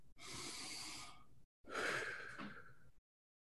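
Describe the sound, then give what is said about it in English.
A crowd of people taking deep breaths together: two long, loud, airy breaths in a row, each lasting over a second, with a brief silent gap between them and no talk. “Everyone take a deep breath. One more.”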